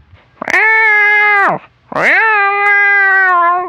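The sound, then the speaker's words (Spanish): A hungry cat meows twice, long and loud, each call opening with a strained, rising onset and then holding a steady, insistent tone before tailing off, with a short pause between the two. “el gato volvió a maullar con más ganas porque tenía mucha hambre”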